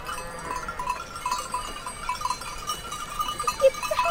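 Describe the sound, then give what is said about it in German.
Sheep on a Swiss alpine slope, dark brown and white flock, give faint, brief bleats over a low, steady background hum with light ringing tones. “Endlich kommen die Schafe in Sicht. Dunkelbraune und weiße Wollknäuel bewegen sich auf erstaunlich dünnen Beinchen den Hang rauf und runter.”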